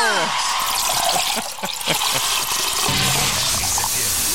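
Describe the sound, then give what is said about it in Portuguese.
Tubaína soda pouring into a glass, a steady fizzing trickle that runs the whole way through, with a voice heard faintly at the start. “Vamos encher o copo de Tubaína hoje”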